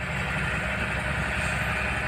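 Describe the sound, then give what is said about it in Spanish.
Engine rumble of concrete mixer trucks coming and going at an industrial estate, a continuous, steady low drone with a dense vibrating texture and no distinct pass-by. “Llegamos al polígono de Tuesta, en Valdegovía. Es continuo el ir y venir de los camiones hormigonera.”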